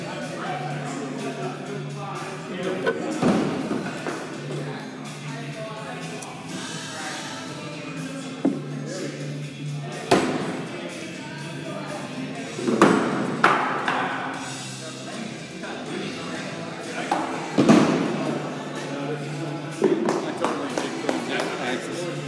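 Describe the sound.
Thrown bags thumping onto a board during a tossing game, a few dull, sharp thuds spaced several seconds apart, heard under ongoing conversation between men.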